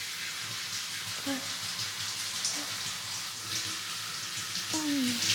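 Hair is washed with water, a soft, steady watery hiss and swish that runs throughout, with a few faint, brief vocal sounds over it.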